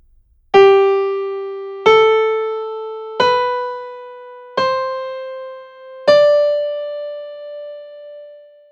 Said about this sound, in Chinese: 五音列是二度极进， 这是五音列的声音。